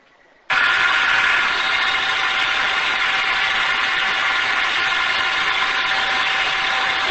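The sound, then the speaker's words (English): An industrial air blower switches on abruptly and then roars steadily. A loud, constant rush of air carries a faint steady hum, with no voices. “This is a blower. This is a blower. The blower is passing by.”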